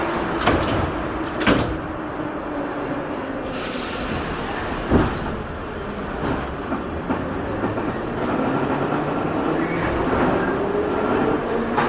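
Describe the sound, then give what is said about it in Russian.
Moscow metro train doors sliding shut with a heavy thud, followed by the carriage's continuous rumble and a rising motor whine as the train pulls away toward Dinamo station. “Осторожно, двери закрываются. Следующая станция «Динамо».”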